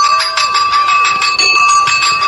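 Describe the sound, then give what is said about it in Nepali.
A school bell rings loudly and continuously, a bright metallic ringing with rapid, even pulses that holds steady throughout, with no talk over it. “Sir, घण्टी लाग्यो, अब जाउँ है कक्षातिर?”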